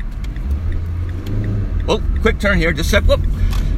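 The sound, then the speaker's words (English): City traffic heard from a car driving through downtown Edmonton toward 109th Street and the High Level Bridge: a low engine and road rumble runs throughout while a man talks over it. “getting on it, man, there's so much traffic downtown. I'm heading towards 109th Street, the high level bridge”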